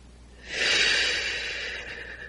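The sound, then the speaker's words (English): A single deep breath taken during a guided meditation, one long, loud, airy inhalation that swells quickly and then slowly fades, with no voice over it. “And we take a deep breath.”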